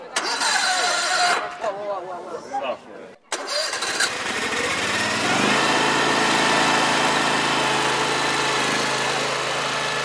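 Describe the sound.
A remote-controlled eight-wheel articulated transport vehicle starts its engine after some talking. The motor catches with a sputter and settles into a loud, steady droning run.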